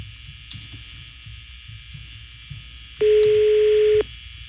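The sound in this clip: A telephone tone during dialing: one steady, loud beep lasting about a second cuts in over faint background sound and stops abruptly.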